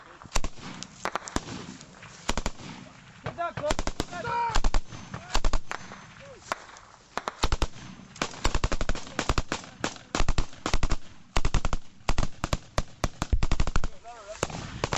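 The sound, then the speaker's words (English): A gun battle with machine gun fire: many sharp, loud cracks in rapid bursts and volleys, dense and nearly continuous for the whole stretch. A voice is briefly heard among the shots. “And then it kicks off. The gun battle will last 5 minutes.”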